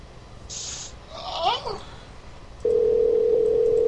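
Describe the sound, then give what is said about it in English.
A steady telephone dial tone sounds during an unanswered call. The single unbroken, even hum starts partway through and holds to the end, after a short high hiss and faint chirping sounds. “Nobody wants to fucking answer their stupid phone. Alright, Bubby, calling you. Just rolling through my numbers.”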